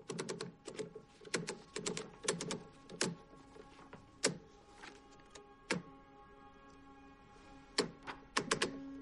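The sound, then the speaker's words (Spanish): A sheet of paper being fed into a typewriter: many faint, sharp clicks and small clatters come in irregular bursts, with quiet pauses between them. “coloca una hoja en una máquina de escribir”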